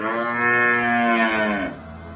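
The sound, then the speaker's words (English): A dairy cow on a small family farm moos as the herd is called in from the meadow for twilight milking. The single long, loud, harmonic low holds steady before trailing off, with no talk. “calling the cows in from the meadows for their twilight milking”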